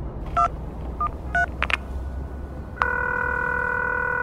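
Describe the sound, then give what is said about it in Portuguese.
Touch-tone keypad beeps as a telephone number is dialed, with a few short two-tone presses at uneven intervals. A steady continuous line tone then takes over to the end, over a low background hum. “Vou ligar pro seu Gilmar pra ver se ele encontrou a Derby.”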